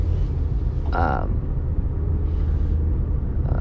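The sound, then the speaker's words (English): Low, steady car engine rumble from a car that is starting to drive after warming up, running continuously beneath a person talking. “Sorry, I'm going to start driving here as my car was warming up.”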